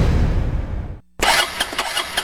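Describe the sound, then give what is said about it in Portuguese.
A troublesome motorcycle engine fails to start: a low rumbling sputter dies away, a moment of quiet follows, then harsh, rattling mechanical noise bursts in with uneven clatter. “Essa minha moto só vive no prego, já levei ali, acolá, em tudo que é mecânico e nada”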